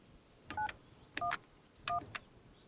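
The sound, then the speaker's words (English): Touch-tone beeps come from a phone box keypad as 911 is dialed. There are three short two-tone beeps at an even pace, each with soft clicks from the key presses, and no voices. “Oh, bingo! Phone box. Okay. In case of emergency, please dial 911.”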